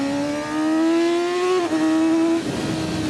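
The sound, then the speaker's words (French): A 600cc sport motorcycle engine with a track-focused riding position drones loudly while riding, its buzzing pitch climbing steadily, dipping briefly, then climbing again before turning rougher and noisier near the end. “Oh là là, l'agilité de la moto, ça c'est génial. Et puis, petit 600 là, il a la patate.”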